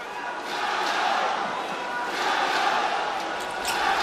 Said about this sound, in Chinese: 古德温第二罚罚进了